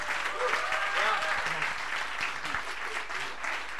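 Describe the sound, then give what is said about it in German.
Audience applause welcomes a guest at a church service, a steady wash of clapping hands that holds for several seconds while a voice speaks over it. “But why don't we give him a huge big welcome as he comes”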